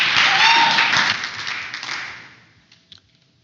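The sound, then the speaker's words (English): Audience applause and clapping at a group meeting. A dense burst of claps gradually thins and fades out over a few seconds, then a couple of scattered claps remain at the end. “Give it up for Mindy.”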